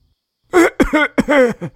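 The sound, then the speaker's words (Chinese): A man coughs as he comes to, a few short, rough voiced bursts with a throaty, strained tone, heard alone without other talk. “陈默咳嗽了一声，缓缓苏醒了过来”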